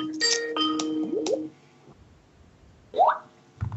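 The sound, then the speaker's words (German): A telephone rings with an incoming call on line 2. A short electronic ringtone plays bright tones with quick upward glides, falls silent for over a second, then gives a single rising chirp and a brief low thump. “Oh, da kommt ein Anruf auf Leitung 2 rein.”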